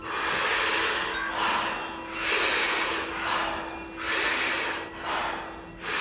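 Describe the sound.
Rhythmic deep breathing exercise: a steady run of breath cycles, each strong, airy breath in followed by a soft, partial exhale. The whooshing breaths rise and fall at an even pace, fairly soft, with no talk.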